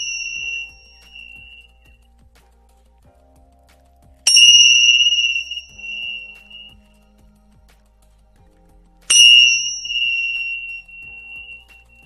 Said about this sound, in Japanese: ジュエタンベル鳴らします。